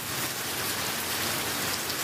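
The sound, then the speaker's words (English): Torrential rain pours down during a flash flood in the streets of the Danish capital, a dense, steady hiss of water that stays loud and unbroken throughout, with no voices. “Video from the event shows city streets transformed into waterways, passing city buses generating waves that broke against storefronts and relentless torrential rain.”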